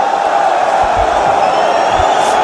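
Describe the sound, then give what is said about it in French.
A rugby crowd grumbles after a huge kick by Matthieu Jalibert goes straight into touch, a loud, unbroken murmur of many voices that holds level throughout. “Allez, je vais vous expliquer quand même pourquoi le public râle. C'est parce que il y a eu un grand coup de pied, un immense coup de pied de Mathieu Jalibert, et qui est directement en touche”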